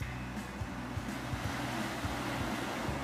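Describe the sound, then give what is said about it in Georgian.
Surf washing in at a beach with giant wind- and water-polished boulders and clean sand: a continuous, fairly quiet rumbling wash of waves with some wind noise and no clear breaks. “ეს ადგილი მსოფლიოში საუკეთესო სანაპიროების ხუთეულში შედის.”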